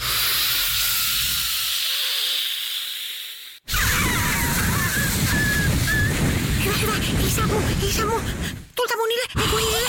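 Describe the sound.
Hard, forceful blowing as if on grill coals makes a loud, breathy rush of air that runs nearly unbroken for about ten seconds, with a short break near the middle. Voices mix in with the blowing.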